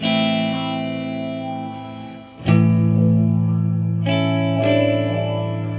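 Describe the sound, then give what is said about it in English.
Electric guitar played through a multi-effects unit on its 'Deep Blue' memory patch: a lush, chorus-washed chord rings and slowly dips, then three fresh strums burst in, each sustaining with shimmering echo, and no talk is heard. “It's got 50 memory patches. Some are bizarre. This is just, it says CDR. So nothing. Then you got spring reverb. You got deep blue.”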